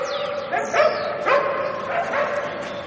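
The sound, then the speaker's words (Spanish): A dog going after a tennis ball thrown into a building gives a few short, high-pitched yips and whines. The bursts are fairly loud and repeat at a quick, uneven pace. “El perro entra a buscarla.”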